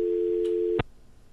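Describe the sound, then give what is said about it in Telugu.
A telephone busy tone after a call is cut off: a steady, low-pitched electronic tone holds for most of a second, then stops sharply with a click, leaving faint line noise. “Call cut అయిపోయింది, మళ్ళీ try చేద్దాం.”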